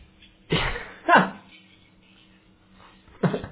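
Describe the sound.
A sneeze blasts straight into a microphone as a sharp, loud burst, with speech around it.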